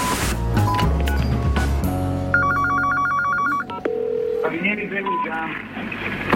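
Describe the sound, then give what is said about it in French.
Telephone call to the police: phone dialing tones and a rapid trilling ring, mixed with clicks and other handset sounds, steady and moderately loud over about six seconds. “Le lendemain, en effet, vendredi 2 novembre, à 12h51, la police de Pérouse reçoit cet appel.”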